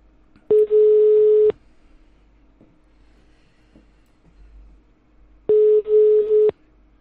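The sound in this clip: A telephone ringback tone plays while a number is redialed: two long, steady beeps about five seconds apart, with a faint line hiss between them and no talking.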